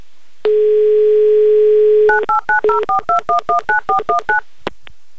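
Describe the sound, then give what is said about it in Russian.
A telephone number being dialed: a steady dial tone holds for under two seconds, then gives way to a quick run of short, evenly spaced keypad beeps, loud and clear with no voices, followed by a faint click. “И сейчас я буду набирать ваш номер.”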